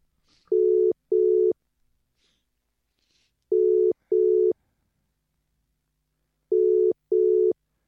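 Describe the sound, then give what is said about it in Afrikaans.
A telephone line rings as a call is dialed, giving three double rings. Each is a pair of short, steady mid-pitched tones, with about two seconds of silence between pairs. “Nou die eerste man wat ek nou gaan bel, is een ou bekende hier op Ramkat Radio, so kom ons hoor of die ou beskikbaar is.”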